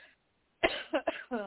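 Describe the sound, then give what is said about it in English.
Dry, unproductive coughing from a person with a cold and a constantly running nose: a quick series of hacking coughs, the last one more voiced, after a short faint sound. “unproductive cough.”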